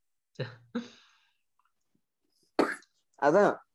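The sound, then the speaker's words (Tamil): Coughing from a person, a few short harsh bursts spread across the moment, each abrupt and breathy, ending with a brief voiced sound. “அதான் sorry cough cough வந்துருச்சு.”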